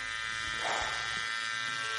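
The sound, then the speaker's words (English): Electric shaver buzzing while shaving off a mustache, a continuous even drone that holds steady throughout. “Ooh, okay, I did it. I shaved my mustache off.”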